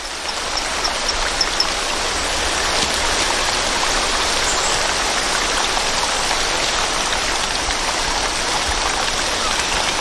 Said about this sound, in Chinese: 变化叫声的效果还算不错，水流的声音还是太大了，需要更强效的措施。